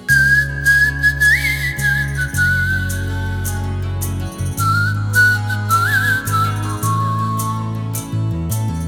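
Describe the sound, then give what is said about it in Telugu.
A person whistles a song tune, a clear high melody with a few upward pitch flicks, held over a steady low musical backing throughout. “ఇప్పుడు విజిల్తో నేను tune ఇస్తాను, నువ్వు దానికి పాట పాడాలి, సరేనా?”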